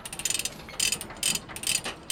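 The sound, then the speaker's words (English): Giant wrenches ratchet as workers unscrew the bolts holding a streetcar onto a flatbed truck. Sharp metallic clicking comes in quick, uneven bursts that repeat several times. “Then workers used giant wrenches to unscrew the bolts that were holding the car onto the bed.”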